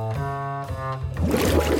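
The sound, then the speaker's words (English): Water pours from an office water cooler, a bubbling, gurgling rush that fills the second half after an opening stretch of steady tonal sound. “I'm gonna help myself to the water cooler here while I wait for backup.”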